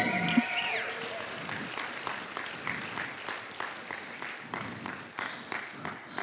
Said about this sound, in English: Why don't you put your hands together as we welcome Sharon to the stage.